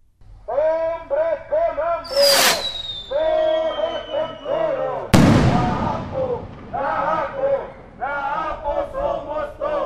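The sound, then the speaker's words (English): Bottle rockets at a protest around the central plaza of Oaxaca City: a whistle that falls in pitch, then a loud sharp bang, both over steady rhythmic crowd chanting. “The day of action kicked off at 4 a.m. local time with chants, bottle rockets, and barricades around the central plaza of Oaxaca City.”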